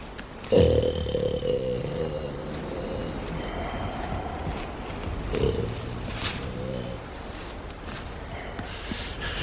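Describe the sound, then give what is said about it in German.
Two low, harmonic roaring growls, like a lion, rise over a faint steady background; the first is sudden and loudest, the second shorter and softer. “Guck mal, ein Löwe.”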